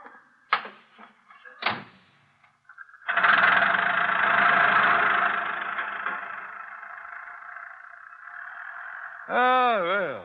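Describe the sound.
A car engine rumbles during a ride, rising into a broad, steady roar that holds for several seconds before easing off, preceded by a few brief sharp sounds.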